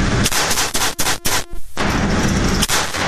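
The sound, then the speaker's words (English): Rapid gunfire from a Valcourtson Mamba .22 comped pistol with an optic: a fast string of loud, sharp shots running close together, their reports blurring into a dense, crackling burst. “That is the Valcourtson Mamba. Okay. The 22 comped optic. Almost fires itself. Almost. Yeah. All right. All you got to do is hold it. Here we go. All right. Six rounds as quick as you can when the target faces.”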